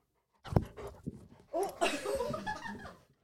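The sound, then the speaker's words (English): Faint whimpering from a female Malamute–German Shepherd cross dog: a few short whiny yelps, then a longer, wavering moan that trails off. “She is a Malamute German Shepherd cross. So she's a big girl and a very hairy, sheddy girl.”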